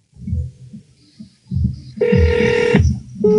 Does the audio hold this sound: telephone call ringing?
yes